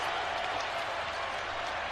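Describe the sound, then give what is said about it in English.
Crowd cheering at an Arizona versus BYU college basketball game after a driving lay-in: a steady, even roar of many voices and some clapping fills the whole two seconds without distinct peaks. “And Jaden Bradley scores it on the driving lay-in. That gave the crowd something to cheer about.”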